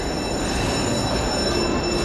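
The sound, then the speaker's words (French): A train in a Paris commuter railway station, a steady, dense rumble with a thin high whine running through it and no voices. “Et donc là, vous reprenez le train maintenant ?”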